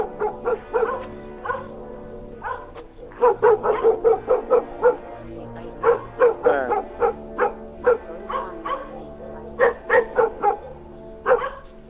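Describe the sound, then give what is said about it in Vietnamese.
A dog barks through the night in many sharp, loud bursts, with drawn-out tonal cries like mournful howls or whines mixed between the barks. “vẫn thản nhiên sủa, cứ sủa một tràng bâng quơ, rồi lại kết thúc bằng một hồi tru dài dằng dặc, thê lương, rồi tru, rồi sủa.”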